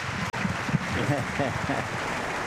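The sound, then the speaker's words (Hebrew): Loud audience applause after a concert performance of Bartók's Concerto No. 2: a steady, dense wash of clapping that continues evenly under a man's talk. “תשואות רמות, רמות.”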